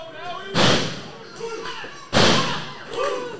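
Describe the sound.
Two heavy thuds of a wrestler body-slamming an opponent onto the ring during a pro wrestling match, each a sharp, booming impact. Voices carry on underneath and between the slams.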